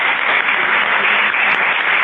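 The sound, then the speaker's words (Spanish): An audience applauds a speaker at the end of a talk, a continuous, loud wash of clapping with a dull, muffled tone that stays even throughout. “A Miguel no le hemos aplaudido al final.”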